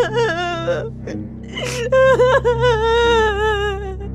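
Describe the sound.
A woman kneeling in a courtyard wails and whimpers in pitiful, broken sobs, her voice rising in long quavering cries separated by short gasps and catches of breath.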